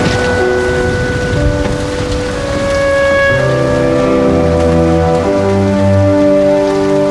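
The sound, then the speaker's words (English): Heavy rain pours down in a steady, dense hiss that lasts the whole clip, with sustained low tones held alongside it. “Susanna's sitting in a chair holding Ruby as rain pours down.”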